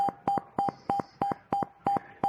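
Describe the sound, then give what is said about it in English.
A computer program sounds alarm beeps: eight short, evenly spaced electronic beeps on the same steady pitch, repeating in a regular rhythm. “until you tell me to stop, i.e. hit Control C, I'm going to just keep on beeping.”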